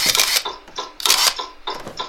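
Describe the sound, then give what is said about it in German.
A camera taking a photo gives off bright, rattling mechanical clicks and whirs. They come in a few loud bursts in a rough, repeating rhythm, with no voices. “Ich mache ein Foto.”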